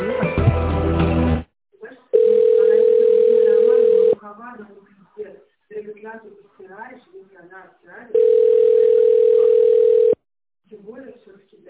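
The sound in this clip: Telephone tone plays during a call as it is transferred to a secretary: two long, steady, mid-pitched tones, each about two seconds, with a person speaking in the quieter stretch between them.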